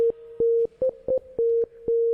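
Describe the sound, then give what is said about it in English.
Electronic Morse code beeps tap out the letters M and I. Steady mid-pitched tones repeat in a long, long, short, short pattern, with the short beeps slightly higher in pitch. “And the Mission Impossible theme uses the Morse code letters M-I.”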